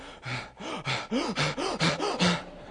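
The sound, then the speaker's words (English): A voice imitates hard, menacing breathing meant to scare someone away: a rapid, steady run of voiced, gasping breaths with rising and falling pitch, heard alone without other talk. “Like if I breathe hard enough, I'm going to scare her away or alert someone to the fact that something is awful.”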